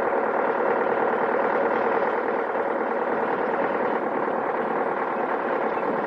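Steady engine drone of a car pulling into a service-area parking lot, a continuous mid-pitched rumble that holds level without distinct changes.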